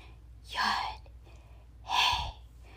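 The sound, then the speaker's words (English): A divine name voiced as breath: two soft, airy exhalations, breathy and whispered rather than spoken aloud, separated by a quiet pause. “Hebrew belief is that Yod-Heh-Vav-Heh, Yahweh, God, is meant to be spoken as breath.”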